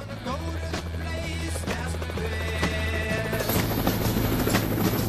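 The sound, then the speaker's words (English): A helicopter flies toward a quarry, its rotor giving a rhythmic low thudding under a broad rushing noise that grows somewhat louder partway through, with no voices. “A helicopter flies toward the quarry where the soldiers wait.”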